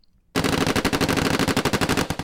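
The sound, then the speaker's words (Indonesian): Rapid gunfire from a shooting practice at a lake in 2018: many loud, sharp shots in fast machine-gun-like bursts begin abruptly after a brief silence and continue densely to the end. “Suara berikut ini adalah suara dari latihan tembak yang dilakukan di Lake Hart pada tahun 2018.”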